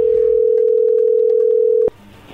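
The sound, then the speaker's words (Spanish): A telephone line tone marks an incoming call: one steady, loud, held note at a single pitch that cuts off abruptly, leaving only faint line hiss. “ahí entra la llamada”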